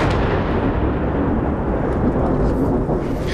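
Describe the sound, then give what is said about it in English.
Deep, loud rumbling boom of an Israeli airstrike explosion in Nabatieh, a sustained low roar filling the whole stretch without a break. “there's been a wave of very intense Israeli airstrikes. We've just heard another one and we can see the plumes of smoke rising”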